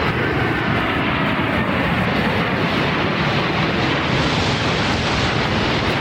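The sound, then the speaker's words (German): Tornado fighter jets roar at Hamburg Airport during a military exercise of takeoffs and landings. The jet-engine noise is loud and steady, a broad rumbling wash that stays constant for about six seconds. “Die Tornado-Kampfflugzeuge. Heute am Hamburger Flughafen haben Sie die auch gehört. 6 Maschinen üben da Starts und Landungen bis Freitag noch.”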